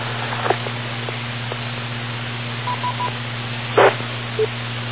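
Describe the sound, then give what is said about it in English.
Brief test tones over HF aviation radio: a few short, even beeps at a steady mid pitch amid constant hiss and static, with scattered clicks and one louder crackling burst. “And they'll read it back, and then all of a sudden you're going to hear the tone. There's a test.”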